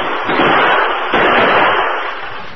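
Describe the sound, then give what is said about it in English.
Gunfire exchanged in a radio-drama western shootout on a rocky ridge slope: a loud, dense wash of overlapping shots and blasts fills the whole clip without pause. “The Lone Ranger crouched behind some rocks on the slope of the ridge as they exchanged shots.”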